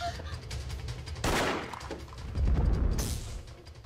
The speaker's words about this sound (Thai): ว่าอะไรแล้ววีถูกยิง